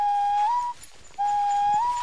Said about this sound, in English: he cups his fingers over his mouth and whistles to alert Obama's babysitters